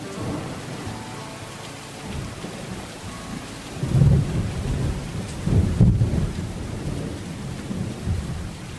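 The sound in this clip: Steady rain falls without pause, a dense hiss with a low rumble underneath that swells twice into heavier bursts, like distant thunder, before settling back to an even patter.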